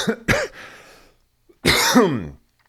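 Harsh coughing from a person who mentions having COVID: a few sharp bursts close together, then a longer, rougher cough after a short pause, loud and with no other sound.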